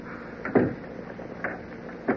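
A door is locked with a key, giving three faint, spaced-out clicks and clunks from the lock.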